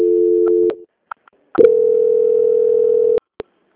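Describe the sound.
Telephone line tones during a call transfer: a steady mid-pitched tone stops, a pause follows with a few faint clicks, then a second, longer steady tone cuts off with a click.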